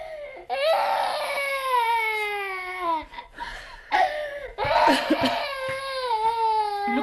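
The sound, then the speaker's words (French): A girl cries in loud, drawn-out sobbing wails whose pitch slides downward. The wails are broken by short gasping breaths and choked catches, then resume with renewed intensity. “Vous voyez, elle n'arrête pas de pleurer.”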